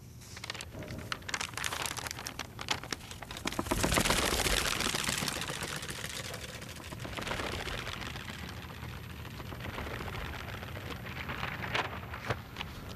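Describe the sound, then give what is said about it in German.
Newspaper pages are turned, folded, smoothed and impatiently shaken in a silent reading room stacked with past editions. The papery rustling and crackling is continuous, with a fuller, louder burst of handling near the middle. “Das Umblättern der Seiten, das Falten, das Glattstreichen, das ungeduldige Schütteln oder Schlagen, wenn ein Blatt nicht gleich gehorcht.”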